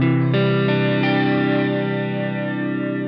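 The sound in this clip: Electric guitar through a Strymon effects pedal, mostly wet signal blended with some dry: a loud sustained chord, freshly struck near the start, rings out with a shimmering chorus- and echo-like wash that slowly thins as it fades.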